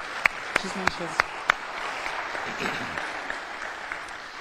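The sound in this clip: Applause from an audience welcoming guests: a few sharp, separate claps at the start give way to steady, dense clapping that continues to the end.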